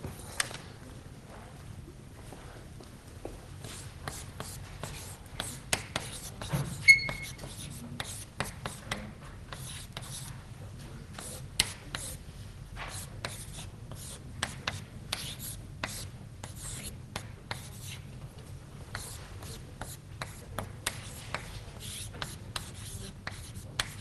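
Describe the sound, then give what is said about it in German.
Notes are written by hand during a lecture, a faint, irregular run of short scratches and taps over a low, steady hum. “Das schreiben wir uns vielleicht mal kurz auf.”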